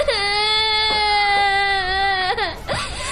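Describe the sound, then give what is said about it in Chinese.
A child crying at home with a grandmother, a loud sustained wail held at one pitch for about two seconds, then dropping and breaking into shorter sobbing catches. “别哭了，别哭了”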